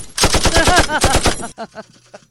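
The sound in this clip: Rapid burst of automatic gunfire from a sound effect: many sharp shots fire in a tight, even rhythm, then a few fainter, scattered pops trail off. No voices are heard.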